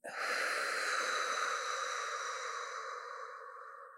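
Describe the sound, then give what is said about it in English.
A long, deep breath drawn in a single steady airy hiss that begins abruptly, holds for about four seconds and fades only slightly toward the end, with no talking. “This is the point in the show where we all take a big breath in”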